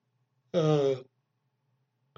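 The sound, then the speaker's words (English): A single yawn, a voiced exhale of about half a second with a strained, breathy tone, in an otherwise quiet moment. A faint short click follows near the end. “gotta get rid of these stupid things. Anyway, stupid yawns.”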